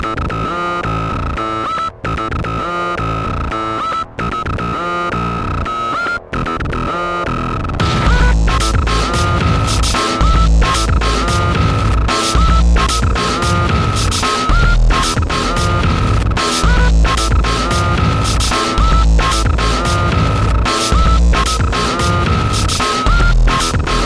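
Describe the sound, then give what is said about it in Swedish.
Electronic music from the Bionic Commando video game soundtrack opens sparse and pulsing with brief dropouts, then swells into a dense, loud, driving section with heavy bass that continues to the end. “i soundtracket till Bionic Commando så hittade man den här låten”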